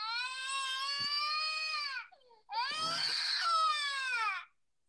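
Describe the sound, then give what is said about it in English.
A whining crying sound effect made of two long wailing sobs with strained, bleat-like harmonics. Each lasts about two seconds, a brief pause separates them, and the second is slightly louder. “I haven't used the sound effect when you keep whining about AEW, but here you go.”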